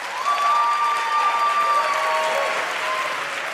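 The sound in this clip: An audience applauding to welcome a game show contestant, with dense, steady clapping that swells slightly and then stays even, with a thin tonal line running faintly through it.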